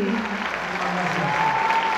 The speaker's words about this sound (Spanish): El público aplaudiéndoles de pie.